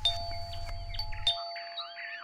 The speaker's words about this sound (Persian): صدای زنگ آمد.